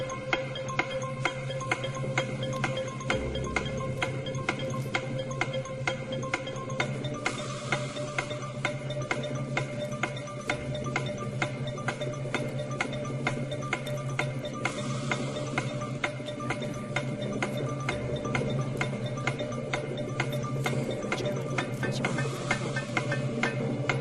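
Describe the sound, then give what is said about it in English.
Steady ticking of a countdown clock, a long run of many evenly spaced, faint ticks that continues at an unchanging rhythm with no voices. “Okay, so the clock is going to begin. Are you ready? When the clock starts, you can go.”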